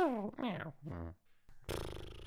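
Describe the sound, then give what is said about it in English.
A person imitating a cat's purr, a buzzy rolling vocal trill that follows a few short voiced, meow-like sounds. “Purring like a cat. How do you purr like a cat?”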